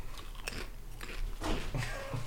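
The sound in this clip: Crunchy bites into a tortilla chip heaped with thick sauce, several crisp, fairly loud crackles spaced through the chewing, with no talking.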